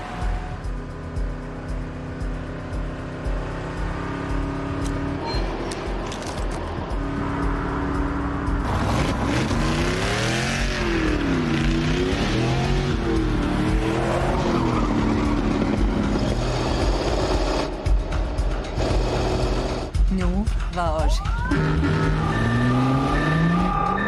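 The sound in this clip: A car engine roaring in a chase, the pursuing car an older model without digital parts; the drone builds and then revs repeatedly, its pitch sweeping up and down through the middle section before settling into a loud, steady roar.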